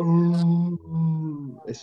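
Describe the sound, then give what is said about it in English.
A voice imitates a lion's moaning roar: a low, droning, strongly voiced moan that steps down in pitch partway through and carries on, ending with a short breathy rasp. “lions, they have the most boring roar of all the big cats. Yeah, because their roar is like a moan.”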